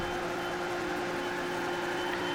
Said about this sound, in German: das war das Stadium aus der ähm, Open Beta von Trackmania, während ich in meine Donuts fahre